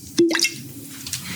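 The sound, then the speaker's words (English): A brief liquid plop and splash of wine being poured from a bottle of 2012 Applegate Valley Viognier at a candlelit dinner table. One short burst is followed by a faint low rumble. “Did you hear that? That is the sound of a 2012 Applegate Valley Viognier.”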